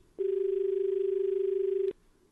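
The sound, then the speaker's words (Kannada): A telephone line tone signals an incoming call. It is a single steady, mid-pitched beep lasting under two seconds, loud and alone, with a quiet hiss after it. “ಮುಂದಿನ ದೂರವಾಣಿ ಕರೆ.”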